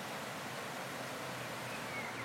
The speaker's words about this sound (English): You can hear the river running here behind me.